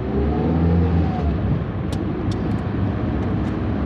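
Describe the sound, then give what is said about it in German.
Steady engine and road rumble from a green German army vehicle and a rental car carrying soldiers on a long drive through the countryside. The low droning noise is continuous and even throughout, with no voices. “Mit einem Greenliner, wie die grünen Bundeswehrfahrzeuge heißen, und dem Mietwagen der Pastorin fährt eine Handvoll Soldaten gut 4 Stunden durchs Land in den Nordwesten Litauens zum Kryžiukalnas”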